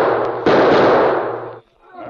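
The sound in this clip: A gunshot in a radio drama: one loud, sharp bang with a long, slowly fading tail, preceded by a faint small tap.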